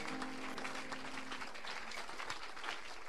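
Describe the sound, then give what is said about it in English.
Congregation clapping together, a dense, steady wash of many hands that holds at an even level throughout, with no voices standing out. “Receive your clap. I want you to clap and clap better.”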